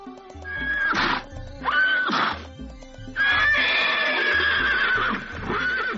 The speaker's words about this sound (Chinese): 我说，你什么时候开始骑马了呀？ 哦，这不是我的马，是我的亲戚托我卖的。